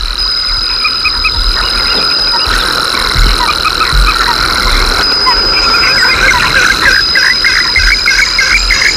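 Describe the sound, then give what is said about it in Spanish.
A frog croaks through a throat membrane resonator that makes its voice sound broken, giving many rapid, rasping calls in repeated bursts over a thin, steady high tone that cuts in and out. “Bueno, y otros grandes expertos del canto entre dos luces, entre dos aguas, a media luz, los anfibios, que utilizan un resonador. En vez de utilizar un cañón, un barranco, utilizan una membrana que tiene en la garganta para que su voz suene rota,”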